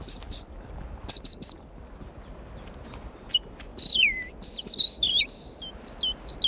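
A great tit sings a run of high, clear two-syllable whistled notes, repeated many times in quick, uneven bursts over a faint, steady background hiss, with no voices.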